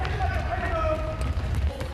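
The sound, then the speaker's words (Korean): Running footsteps of children sprinting laps in a training drill, a fast, continuous patter over a steady low rumble. “감독님 말이 떨어지기가 무섭게 아이들이 전력 질주합니다.”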